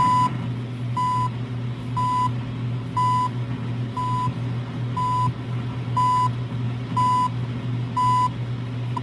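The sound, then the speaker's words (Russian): The CHU Canada shortwave time signal ticks seconds: eight short, steady mid-pitched beeps at even one-second intervals, set against a constant hiss and low hum. “многим из нас будет очень не хватать этого стабильного канадского голоса и тикающих секунд. Вот как звучит”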